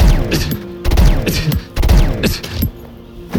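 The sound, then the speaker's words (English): Sci-fi blaster shots fired at a tether's attachment point sound as several loud, sharp bursts with sweeping, falling zaps and ringing tails, heard alone without talk. “3 blaster shots at the tether's attachment point”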